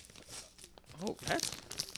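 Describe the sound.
The side of a bag being ripped open, a faint crinkly tearing and crunching with short rustles, mixed with quiet talking.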